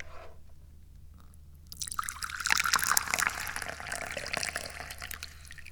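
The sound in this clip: Tea being poured into a cup: after a quiet start, a splashy liquid trickle begins and runs steadily for several seconds, fairly loud and bubbly.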